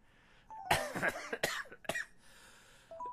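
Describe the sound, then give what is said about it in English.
Coughing from a person who has had too much cannabis: a few harsh, rough coughs in a quick burst, then quiet. “I am coughing under too much cannabis.”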